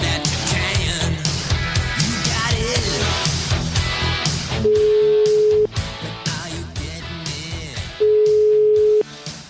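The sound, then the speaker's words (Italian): Telephone ringing tone while a call is placed: two long, steady low tones, each about a second, set among loud music that plays before and between them. “Proviamo a chiamare Gentilini, che dici? No, ma forse sì. Risponderà. Sentiamo.”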